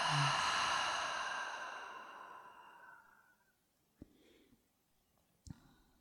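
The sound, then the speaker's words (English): A long, breathy exhale through the open mouth during a guided breathing exercise. It starts loud and fades steadily over about three and a half seconds into quiet, broken by two faint clicks. “In through the nose, full inhale. Open the mouth, exhale.”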